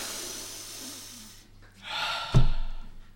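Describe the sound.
A deep human breath: a soft breathy hiss swells, then gives way to a sharper, louder rush of air near the end, with no talking.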